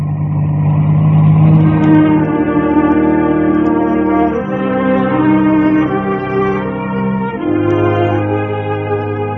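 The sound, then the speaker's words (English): A car engine drones steadily while driving, a loud, continuous harmonic hum that shifts pitch slightly a couple of times, with no voices. “We drive on in silence.”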